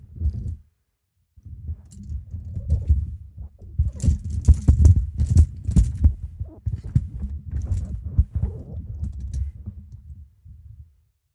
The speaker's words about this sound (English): Sorry, bear with me while I adjust my microphone here.